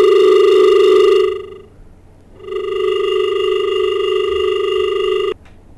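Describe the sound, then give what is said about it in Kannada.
A telephone tone sounds after a call is disconnected: two steady electronic tones, the first about a second long and the second nearly three seconds, separated by a short pause. “ದೂರವಾಣಿ ಸಂಪರ್ಕದಲ್ಲಿ ಕಡಿತ ಉಂಟಾಗಿದೆ.”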